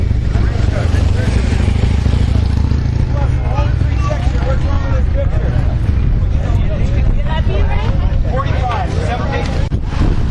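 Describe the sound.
Motorcycles riding together in a motorcade, a loud, continuous low engine drone that holds steady throughout, with voices and crowd babble mixed in over the rumble.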